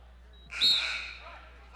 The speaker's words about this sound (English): and we have a late whistle